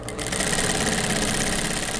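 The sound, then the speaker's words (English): Sewing machine running as a seamstress stitches the final details on a dark green and navy fall jacket: a loud, steady mechanical whir that holds without pause throughout, with no talk. “A single seamstress is hard at work sewing the final details on a dark green and navy fall jacket, part of Der Canvas's latest collection.”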